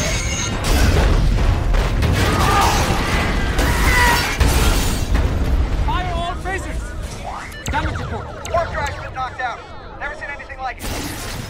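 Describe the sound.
A torpedo strikes a shielded vessel during a red-alert battle, with a cluster of heavy booms and crackling bursts filling the first few seconds, then settling into rumbling noise as voices talk.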